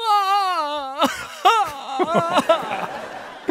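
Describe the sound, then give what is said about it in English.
A voice imitates a man sobbing and wailing. It begins with a long, wavering, quavering wail, then breaks into choppy, gulping sob bursts of uneven rhythm. “Jalpert, just sobbing, and not in like a romantic, cute way. Oh, he's like kind of wailing.”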